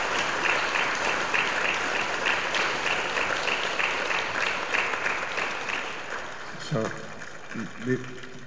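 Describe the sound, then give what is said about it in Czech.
An audience at a church mass applauds with sustained, dense clapping that gradually thins, and a voice is heard briefly near the end. “Let us give a clap for that Jesus again.”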